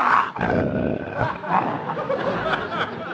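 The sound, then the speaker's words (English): Deep barking and growling from a large Great Dane, rough and grunting, with loud noisy bursts that run almost continuously. “Get that dinosaur away from me. That's the biggest dog I ever seen.”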